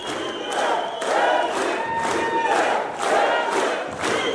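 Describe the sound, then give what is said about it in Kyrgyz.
Supporters chant and shout in unison to greet presidential candidate Adakhan Madumarov at a meeting with migrants in Moscow. The loud crowd voices rise and fall in a steady, repeating rhythmic pulse. “Тарапташтары элдик президент деп кыйкырып кол чаап тосуп алган саясатчы”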